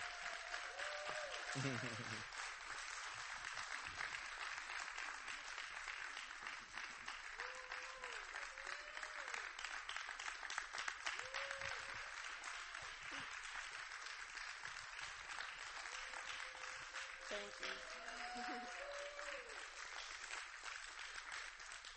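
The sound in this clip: A church audience stands and applauds to welcome the pastor, a dense, steady clapping that fills the whole stretch without pause, with occasional voices calling out above it.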